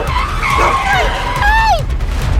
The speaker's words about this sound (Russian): О, слава богу, водитель затормозил.